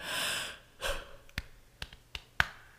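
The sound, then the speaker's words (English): A yawn: a long, breathy exhale, then a shorter breath, followed by a few brief, sharp clicks. Quiet, with no talking. “that's my second time yawning”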